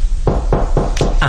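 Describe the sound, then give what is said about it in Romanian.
Knocking on a door: five evenly spaced, fairly loud knocks in a steady rhythm over a low constant hum. “E destul să binevoiți să rămâne cu mine până când se va ciocăni la ușa aceasta.”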